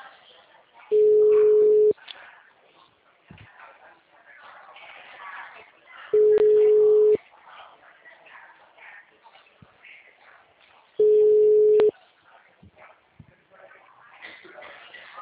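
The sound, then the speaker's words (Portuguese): A telephone busy signal on a line where all lines are busy: a steady low tone sounds three times, each lasting about a second with gaps between, over faint background murmur. “Por favor, aguarde. Todas as linhas estão ocupadas.”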